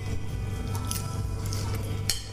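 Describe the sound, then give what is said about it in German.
Chewing and biting from a person eating a meal, a steady, moist mastication noise that carries on without pause at a moderate level. “Ich werde jetzt in aller Ruhe essen.”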